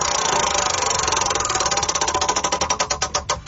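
A prize wheel spins during a game, its pointer first rattling in a rapid, dense stream of ticks that gradually slows into distinct, evenly spaced clicks as the wheel loses speed.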